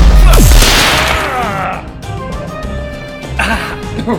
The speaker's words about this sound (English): The remaining four now line up and begin firing everything they have at the would-be tyrant.